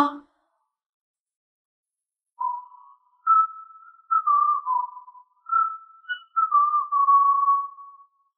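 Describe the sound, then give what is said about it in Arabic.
A slow fire engine siren sounds as a few long, whistle-like wailing tones held near one pitch with slight dips. The notes are separated by short silences and stand alone after a brief noise at the start. “سيارة إطفاء بطيئة، سيارة إطفاء بطيئة.”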